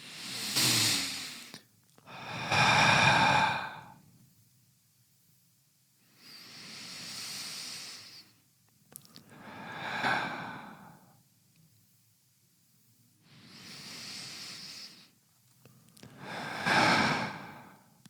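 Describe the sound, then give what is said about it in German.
Three slow breaths taken in through the nose, each an airy, hissing pair of inhale and exhale, coming in steady separated bursts with quiet pauses between and no talking. “Lass uns mal drei Atemzüge durchführen. Dann können wir es aber. Achtung. Durch die Nase aber.”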